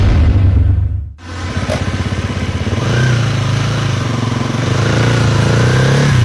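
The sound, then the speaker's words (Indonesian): Motorcycle engine running beside a sidewalk where it is parked. The loud rumble dips sharply about a second in, then returns as a steady, throbbing idle with slight revving. “Eh Neng, kenapa motornya parkir di trotoar? Itu kan buat pejalan kaki.”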